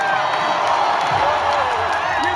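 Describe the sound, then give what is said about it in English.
Stadium crowd roaring and cheering at Dodger Stadium during a 2018 World Series game between the Los Angeles Dodgers and the Boston Red Sox, a dense, loud, unbroken wall of voices. “What you're hearing is from an electric game at Dodger Stadium in the 2018 World Series between the Los Angeles Dodgers and the Boston Red Sox.”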